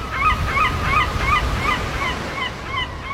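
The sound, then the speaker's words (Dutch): Seagulls screeching at a seaside resort on the English east coast at Clacton-on-Sea: a long series of evenly spaced, harsh two-part cries over a steady, loud, rushing background noise. “het enige wat je hoort is het gekrijs van meeuwen en de muziek van verlaten amusementshallen”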